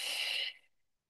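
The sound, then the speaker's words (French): A forceful exhale during a Pilates breathing exercise, emptying the lungs: a loud, breathy rush of air that holds steady for about half a second, then quickly fades away. “Expansion de la cage thoracique quand on inspire. Expiration puissante.”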